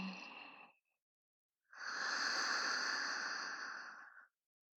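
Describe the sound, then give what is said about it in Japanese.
Slow breathing during a guided relaxation exercise: one breath trails off at the start, then after a short pause a single long, soft, airy breath lasts about two and a half seconds. Quiet, with no voices. “ゆっくり吸って、ゆっくり吐いて、”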